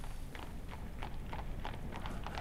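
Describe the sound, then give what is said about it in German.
Hoofbeats of a four-horse coach driven fast over stone cobbles in a castle courtyard, many rapid clattering strikes in a steady, fairly faint rhythm with no voices. “Im selben Augenblick hörten beide eine, wie es schien, mit Vieren bespannte Kutsche rasch über das Steinpflaster des Schlosshofes rasseln und dann ebenso plötzlich anhalten.”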